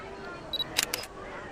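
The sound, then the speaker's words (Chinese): A camera takes a photo at sunset: a brief high electronic beep, then two quick, crisp shutter clicks in close succession over a quiet background. “帮我拍张照片吧，就站在这儿，以夕阳为背景，帮我拍好看点哦，不然揍你。”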